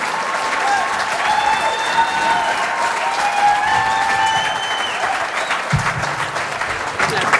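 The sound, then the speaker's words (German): Audience applause welcoming a guest onto a show: sustained, loud clapping throughout, with cheering voices mixed into the dense crowd noise. “At this time, the star of our show, and how about a great big round of applause?”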